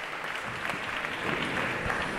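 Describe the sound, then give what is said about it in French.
Audience applause at a meeting: dense, steady clapping from many hands holds at an even level throughout, with no voices. “Et je pense qu'on peut applaudir, que vous pouvez vous applaudir et qu'on peut remercier toutes les personnes qui ont rendu ce moment possible”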